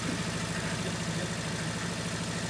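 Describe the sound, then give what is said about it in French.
A combustion-engine tractor running, a faint, steady low throb with an even pulsing idle rhythm that holds constant throughout, with no talking. “Non, c'est un tracteur. Le tracteur, ouais. C'est ouais, thermique déjà.”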